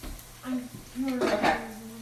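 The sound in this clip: A pot lid is set on a pan while food is stirred: a few brief, faint metallic clinks and scrapes, with people talking over them.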